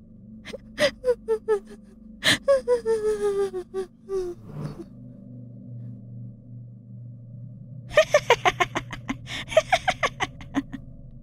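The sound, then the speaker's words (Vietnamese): A woman sobbing with gasping, hiccuping breaths: quick bursts of catching sobs, a longer run of shaky, wavering cries, a pause, then another rapid cluster of sobbing gasps. “Tiếng khóc nấc lên hai ba lần, sau đó lại ngưng.”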